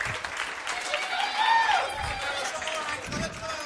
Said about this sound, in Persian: مرسی تشویق کنی خودتونو